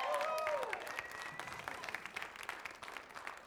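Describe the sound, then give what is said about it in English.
Audience applause for a newly engaged couple at a church gathering, a steady wash of clapping that runs through the whole moment, with a voice briefly heard over the start. “Let's give them a big hand.”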